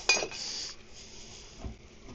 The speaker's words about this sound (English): I'm gonna kind of put the glass on and kind of smoke them in